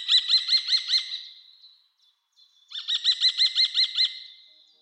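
Kestrel calls, two bursts of rapid, shrill, evenly repeated notes separated by a brief pause, loud and alone with no other sound.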